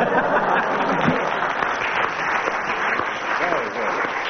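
Studio audience applause fills a comedy panel game, a steady, loud wash of clapping that holds evenly from start to finish.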